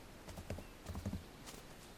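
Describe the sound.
Horse hooves clip-clopping as horses are ridden: a quiet run of many irregular clops over a steady background hiss.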